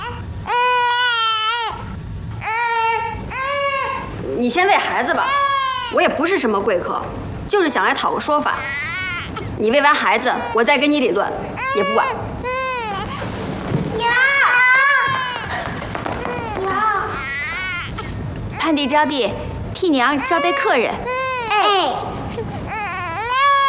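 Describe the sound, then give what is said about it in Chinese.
An infant girl cries loudly and almost without pause, her wailing rising and falling in long, strained sobs for the whole stretch, with voices talking over the crying. “闺女，你别哭，家里来了贵客，娘不能喂你，你忍一忍啊。”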